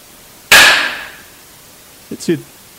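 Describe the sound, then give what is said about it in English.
Knocks recorded during a ghost hunt at Edinburgh Manor: one sharp, loud knock rings out and fades, and later a quick cluster of fainter taps follows over a quiet background. “Play that one more time because you can hear the light tap that was picked up from some other area. But then you hear the big, giant, loud one in that room.”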